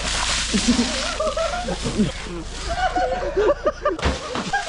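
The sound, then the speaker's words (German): Water splashes during the Polish Easter Monday Śmigus-dyngus custom, where people get drenched, some with whole buckets. Steady sloshing and splattering run under many voices laughing and shouting. “Da machen sich die Menschen an Ostermontag nass.”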